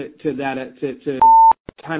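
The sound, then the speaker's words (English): A call app gives a single steady electronic beep that cuts between bursts of talk, followed by a couple of short clicks before the voice resumes. “if you hear that beeping noise, I'm not sure. I don't know if it's the app that we're using that's just beeping along and if it's going to stop”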